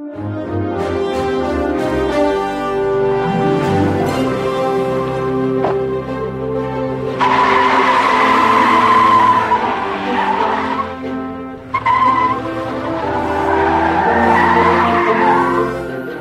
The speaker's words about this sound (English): White wall tires tear across wet asphalt, convertible all curves and chrome.